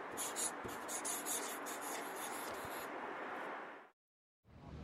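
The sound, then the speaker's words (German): Pen scratching across a paper note as someone writes, a steady, continuous scribble lasting about four seconds, then a brief pause before the writing starts again. “Ich schreibe auch Hi. Was schreibe ich jetzt?”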